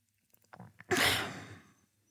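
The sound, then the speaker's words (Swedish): One deep breath: a few small mouth clicks, then a long soft rush of air that swells quickly and fades out over about a second, with no talk. “Ta ett djupt andetag.”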